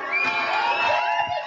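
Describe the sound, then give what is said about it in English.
Women shout and cheer at an arm wrestling match held in a diner parking lot in Charlottesville. The brief burst of high, strained voices and whoops stays steady throughout. “This is the sound of ladies grunting, huffing and puffing, battling it out to see who reigns supreme in a game of muscle, speed, strategy and technique.”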